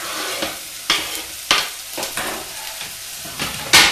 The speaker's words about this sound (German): dann nehmen wir alles zusammen, die Zwiebeln, die Champignons und die Karotten und geben sie ins heiße Öl.